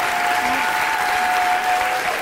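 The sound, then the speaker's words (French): Audience applause for a standing ovation after a theatre performance, a dense, loud, continuous wash of clapping from a crowd that stays steady throughout. “Une standing ovation.”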